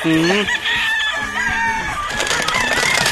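A Vanguard Blue breeding rooster crows on a ranch. It gives a loud, harmonic call that rises in pitch, followed by further crowing and clucking from fowl.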